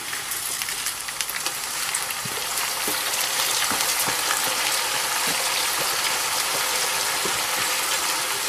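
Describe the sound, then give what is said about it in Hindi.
Chicken sizzles as it fries in a pan until lightly golden, ahead of rice being added for pulao. The crackle is steady and fairly loud throughout, with occasional sharp clicks, and no voices are heard. “आप chicken को यूँ fry कर लेते हैं तो उसमें होता है कि जब आप पुलाव भी इसको बनाएंगे तो ये टूटेगा नहीं”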